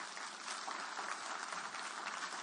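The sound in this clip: An audience claps together at a church service, a steady and fairly faint wash of clapping with no pauses.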